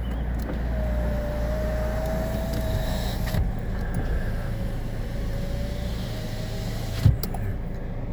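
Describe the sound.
Steady low road rumble inside a moving car, heard from the cabin, with a faint thin whine running through it and one brief click near the end; no one speaks.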